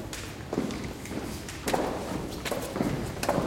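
Footsteps going down a staircase: a few dull, uneven thuds over a low rumbling background.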